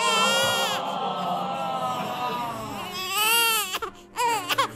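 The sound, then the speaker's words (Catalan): A whiny, high-pitched crying sound effect standing in for a posh girl's cry, wailing with wavering pitch and then breaking into short sobbing bursts near the end. “Aquest plor no el fem servir gaire sovint. No. Perquè ja és de pija. És plor de pija.”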